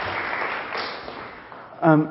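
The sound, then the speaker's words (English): Audience applause for a missionary at a church gathering, a soft, even patter of clapping that wavers slightly before a voice speaks briefly at the end. “Everybody give Ziggy a round of applause.”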